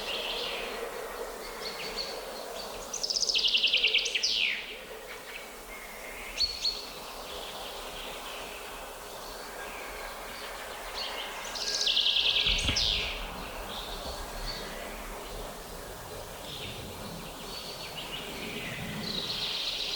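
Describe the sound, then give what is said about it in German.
Two birds counter-singing: two short, high song phrases roughly eight seconds apart stand out over a steady buzzing insect drone. “Jetzt sind wir Zeuge eines klassischen Kontergesanges.”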